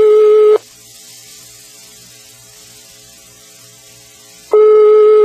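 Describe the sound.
Ringback tone on an outgoing telephone call: a steady, loud, pure tone sounds briefly, then about four seconds of quiet, then the same tone returns.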